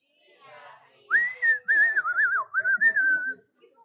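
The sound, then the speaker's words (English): Human whistling of a short tune: a bright, wavering melody of several quick notes lasting about two seconds, clear and alone after a faint murmur. “I can whistle, huh?”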